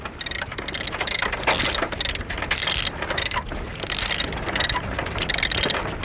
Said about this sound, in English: The harsh cry of 60-year-old winches.